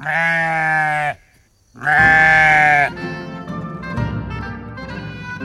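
Two long, loud sheep bleats, each about a second, wavering and strongly nasal, are separated by a brief pause. Lower, quieter bleating and grunting follow.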